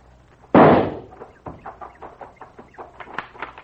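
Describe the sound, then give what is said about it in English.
Gunshots fired at a tunnel: one loud, sharp blast with a lingering decay, followed by a run of fainter, irregular cracks and knocks. “Clip a few shots at the tunnel while I make a run for those rocks there.”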